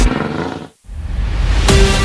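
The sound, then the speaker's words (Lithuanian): Rallycross race cars roar at a Latvian, Lithuanian and Baltic championship event in Vilkyčiai, a loud, harsh engine blare that drops out briefly, builds again, then turns brighter with a sharp burst near the end. “Čia orą drebins Latvijos, Lietuvos ir Baltijos šalių ralio kroso čempionato monstrai.”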